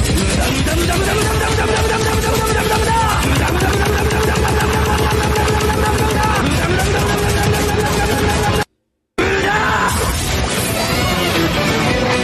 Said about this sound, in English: I hit it with a magical energy blast.